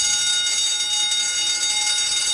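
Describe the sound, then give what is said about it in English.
An alarm bell rings continuously as a sound effect, a loud, bright, high metallic clatter that holds steady throughout with no pauses and no voices. “Alarm! Still want to ring the alarm. Alarm!”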